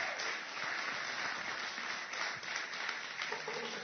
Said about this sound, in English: Let's all just, let's stand, and let's give a big hand, and let's welcome Pastor Ted as he comes.